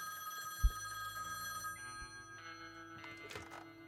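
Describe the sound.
A telephone rings in a video game, a steady electronic ringing tone heard alone over a sustained tonal background, with a sharp knock near the start.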